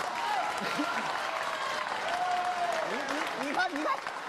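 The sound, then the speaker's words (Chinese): Applause from a live audience, a steady dense patter of clapping that runs through the whole clip while performers keep talking over it. “既然大伙鼓掌了”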